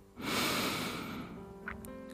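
A deep breath drawn in during a guided relaxation meditation: a loud, breathy rush of air lasting about a second, then easing into a softer, quieter airflow, with no talk.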